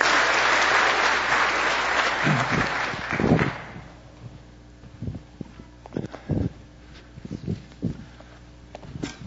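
An audience claps loudly to welcome people. The dense applause dies away after a few seconds and gives way to scattered thumps and shuffling steps.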